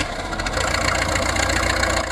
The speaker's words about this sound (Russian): Летчики на аэродром! Заводим моторы!